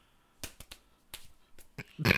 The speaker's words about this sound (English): Let's high five. High five.